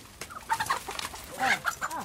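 Chickens cluck in a henhouse in a garden, with a few short clucks and several rising and falling calls in quick, irregular succession at moderate loudness.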